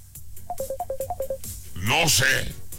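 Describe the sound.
Short electronic telephone tones beep in a quick run at two alternating pitches on a call that goes unanswered, followed by a louder, denser burst of sound.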